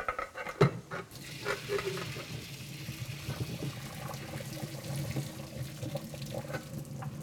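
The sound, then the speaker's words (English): Cooked pasta for an alfredo drains into a kitchen sink: a steady rushing pour of hot water with a sharp clatter near the start, then a continuous, fairly loud splashing wash. “So now I just want to drain my pasta. Ah, it's heavy.”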